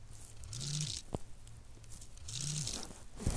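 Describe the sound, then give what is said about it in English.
Crunchy scraping of a knife cutting through a bar of soap: two drawn-out gritty strokes, each followed by a short sharp click, with no voices. “I'm cutting soap.”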